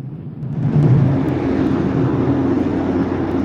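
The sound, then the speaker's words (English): A helicopter flying away from darkened Manhattan, a loud, low, steady engine roar that swells early and then holds. “The helicopter flies away from darkened Manhattan.”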